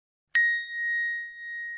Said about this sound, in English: Wait, I'll bet this has got a bell. That's a cash register.